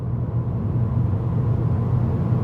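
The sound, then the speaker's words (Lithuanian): A 20-year-old washing machine runs with a steady, low rumbling hum. The drone stays continuous and fairly loud throughout, with no other sounds. “Tai 20 metų senumo skalbyklės garsas.”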